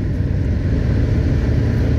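A car engine revs high in gear with a loud, steady, low droning roar that holds without change for the whole moment, with no voices.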